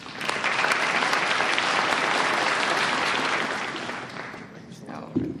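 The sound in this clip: Audience applause welcomes a speaker at a twelve-step recovery meeting, a dense, steady clapping that holds strong and then gradually fades toward the end.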